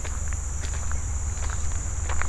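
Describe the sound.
Footsteps walking along a trail, faint soft crunches at an uneven pace beneath a steady high insect buzz and a low rumble.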